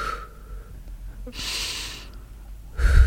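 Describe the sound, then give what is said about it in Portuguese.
Breathing done to a slow mental count: a soft, breathy rush of air rises, holds for under a second and fades, then another breath begins right at the end, with no talking. “Quando vai inspirar, tem que contar até 1, 2, 3 mentalmente. 1, 2, 3, quando vai expirar, conta 1, 2. Portanto, vai assim.”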